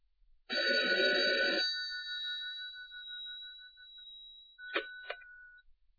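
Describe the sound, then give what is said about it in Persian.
A telephone rings after a number is redialed: one ringing burst, then a thin sustained tone that lingers and fades, followed by two short chirps. The sound is quiet and stands alone. “شماره رو اشتباه گرفتم، دوباره میگیرم.”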